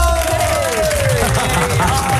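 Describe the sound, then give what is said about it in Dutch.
Studio audience cheering and clapping as guests are welcomed onto a television show. The crowd noise is loud and continuous, and a raised voice shouts over it. “mag ik een groot applaus”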